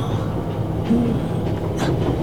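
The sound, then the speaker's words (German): Train travelling on rails on the way to Moscow, a steady low rumble that carries on evenly throughout. “Wo bin ich? Im Zug nach Moskau, wie geplant.”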